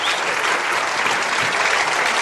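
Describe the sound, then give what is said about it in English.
Audience applause at a church gathering, a loud, dense and unbroken roar of many hands clapping that holds level throughout. “Let's give Curtis a big round of applause, shall we?”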